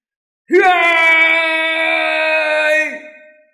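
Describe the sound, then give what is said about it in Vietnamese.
A long, drawn-out scream rings out after a brief rising onset, one loud sustained voice holding a steady pitch for about two and a half seconds before dropping and trailing off, with silence before it. “Một tiếng thét dài ngay lập tức truyền tới”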